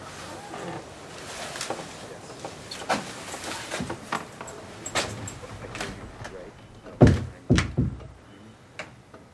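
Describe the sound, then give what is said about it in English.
Front door thudding shut as a couple steps into the foyer of a red clapboard building, a few dull knocks and thumps near the end under a speaking voice. “The couple steps inside the front door into the foyer.”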